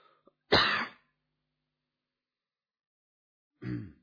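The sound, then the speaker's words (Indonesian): Two short, dry coughs or throat-clearing bursts from a man giving a religious lecture, separated by about three seconds of silence. “Saya tadi sebelum datang ke sini enggak batuk.”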